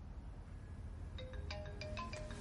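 A mobile phone rings with an incoming hidden-number call in a building. The ringtone is a faint melodic run of short electronic notes that begins partway through over a steady low hum.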